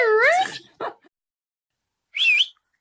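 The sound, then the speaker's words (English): A person whistles to call a dog, giving a few short, high, sliding whistled notes separated by gaps of silence. “can you do that whistle for me again? No, I can't do it. You do it. The dog, the, like, calling a dog. That one?”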